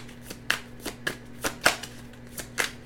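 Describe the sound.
Tarot cards are shuffled by hand, producing several crisp riffling bursts at uneven intervals over a faint steady low hum.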